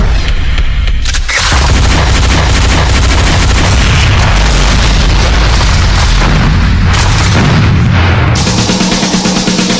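A loud explosion boom sound effect: heavy, dense booming and rumbling that fills nearly the whole stretch with little pause and no talk.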